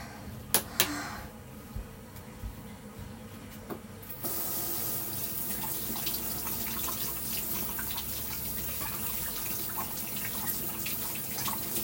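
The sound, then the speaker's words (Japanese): Tap water runs into a sink while a toy is washed. After a few sharp knocks, the tap opens about four seconds in, and a steady, loud rushing flow with small splashes continues to the end. “出て洗って、おもちゃもちょっとだけ洗いたいと思います。”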